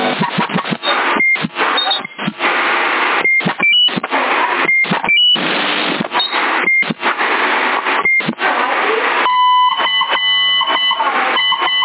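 CB radio beeps on a channel around Sassari, short electronic tones cutting through a noisy, hissing transmission with brief dropouts, followed near the end by a longer sequence of steady stacked beep tones.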